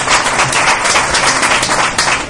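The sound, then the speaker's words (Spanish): Audience applause welcoming a guest onto a radio talk show, a loud and dense burst of steady clapping from many hands. “al que voy a pedir también un fuerte aplauso”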